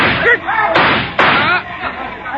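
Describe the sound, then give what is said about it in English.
Gunfire rings out as two sharp bangs crack amid loud, agitated voices talking over the shots. “Your shooting was not very well timed, Captain Andre.”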